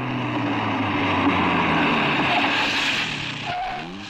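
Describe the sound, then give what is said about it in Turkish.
A car approaching gives off a broad, steady engine roar with a low humming drone that holds throughout and eases slightly near the end. “Bir otomobil geliyor.”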